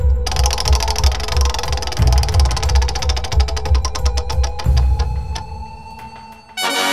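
A prize wheel spins with a fast run of ratcheting clicks that gradually spread out as it slows, heard over a loud, low, droning background that cuts off near the end.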